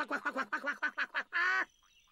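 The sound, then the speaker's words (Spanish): A duck quacking: a rapid string of about seven short, nasal quacks, then one longer drawn-out quack, heard alone without talk. “Eso no era un nuevo tipo de perro, ¿verdad? No, era definitivamente nuestro pato.”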